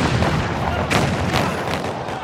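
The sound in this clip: Booming explosions and gunfire in a battle assault on a castle, a grenade blast among them. A few sharp bursts punch through a continuous rumbling, crackling din.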